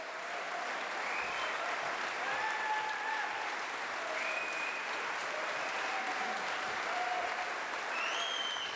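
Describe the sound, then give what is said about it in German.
Steady applause from a concert audience in the Alban-Berg-Saal in Ossiach after a vibraphone trio's performance, calling for an encore; even, continuous clapping, fairly faint throughout. “Und Sie hören es im Hintergrund, das Publikum war sehr angetan von diesem Abend und forderte lautstark eine Zugabe”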